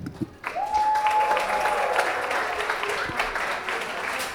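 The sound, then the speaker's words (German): Audience applause for a participant at a live stage event: dense, steady clapping that starts abruptly and holds at an even, fairly loud level to the end. “Noch einmal Spannung und Applaus für Ralf.”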